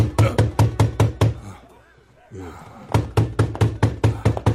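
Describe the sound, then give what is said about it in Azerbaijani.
Loud, rapid knocking on a door in two long bursts of many sharp, even raps, separated by a short pause in which a voice briefly speaks. “Siz nəyi gözləyirsiniz? Gedin qapını açın.”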